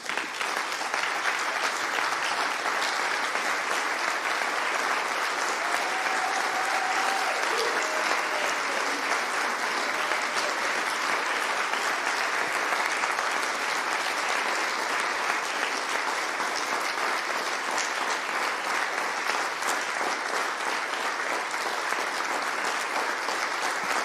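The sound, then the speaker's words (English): A church audience gives a man a long round of applause to honour him before praying for him. The clapping is dense and unbroken, holding an even loudness for the whole stretch. “And I want you to honour Mark, if you could, with a hand.”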